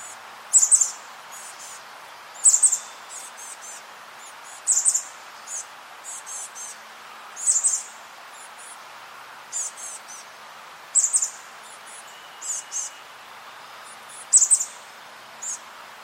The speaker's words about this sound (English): So that was the chestnut back chickadee.